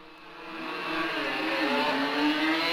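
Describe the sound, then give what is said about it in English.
A 750cc Kawasaki racing motorcycle pulls away hard in a wheelie at a road race, its engine a dense, rasping drone that swells slightly louder, with a wavering pitch. “And that's a wheelie and a half from Mick Grant as he gets away here, really turning on the power of that 750cc Kawasaki.”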